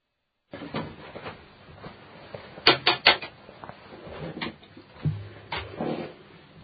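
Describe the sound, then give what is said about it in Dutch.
Knocking, a quick run of three sharp raps near the middle, with scattered softer thuds and clatter before and after. “Klopt iemand?”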